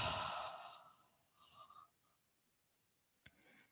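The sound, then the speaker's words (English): Breathing during a yoga exercise, in through the nose and out through the mouth: one long, soft sighing exhale fades over about a second, followed by a shorter, quieter breath and a small click near the end. “Have a breath in through your nose. Out through your mouth as you do.”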